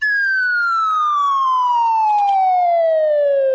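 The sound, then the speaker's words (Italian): A synthesized tone sonifying a diagonal line sounds as one continuous, loud tone gliding steadily downward in pitch from start to finish, heard alone. “ascoltiamo per esempio adesso una linea diagonale.”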